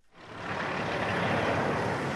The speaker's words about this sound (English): trucks carrying burned timber in the El Dorado National Forest roar past. Chainsaws buzz in the distance.